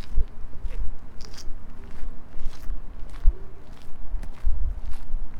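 Footsteps walking through a busy park on a Sunday afternoon: many evenly paced, crunchy steps in a steady rhythm, moderately loud over a low ambient rumble.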